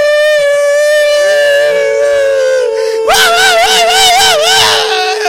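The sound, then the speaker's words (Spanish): Coyotes howling under a full moon: a long, drawn-out tonal howl slowly sinks in pitch, then a louder, higher howl with a strong wavering pitch takes over for the second half. “A la luz de una luna llena. Están aullantes los coyotes deseando de salida.”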